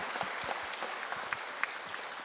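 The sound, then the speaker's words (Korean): Church audience applauding to give glory to God during a Korean service. An even, sustained patter of many hands, with crisp individual claps popping out now and then. “하나님께 영광의 박수 드리겠습니다.”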